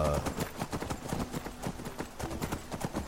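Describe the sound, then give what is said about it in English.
Horses' hooves clip-clop on the ground near a small grove of trees above a cavern, with many quick, steady hoof strikes running without a break. “I think we're going to park the horses here somewhere soon. There's a little grove of trees here just above the cavern.”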